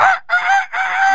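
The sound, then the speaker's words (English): A voice imitates a rooster crowing, giving three loud, strained, harmonic bursts in quick succession, each broken by a brief pause, with no other talk. “Hey, you got a rooster in that repertoire?”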